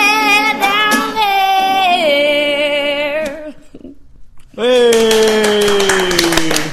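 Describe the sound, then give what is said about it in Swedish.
Hands clap in sharp, repeated strikes alongside a loud singing voice, fading during a brief lull before the clapping and singing return with full force. “Ja, det är bra att ni hjälper till att applådera, så det låter som att det är fler personer.”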